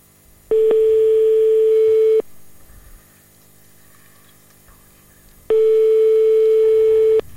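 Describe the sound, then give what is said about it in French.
Telephone ringing tone after a number is dialed to reach a company employee: two long, steady, evenly pitched tones, each lasting under two seconds, separated by a quiet gap of about three seconds. “donc on compose le numéro et on va essayer de le joindre.”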